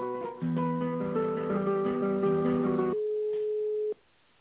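Telephone line tones while a call is transferred: a shifting chord of steady electronic pitches for a few seconds, then one sustained tone that cuts off abruptly. No one speaks.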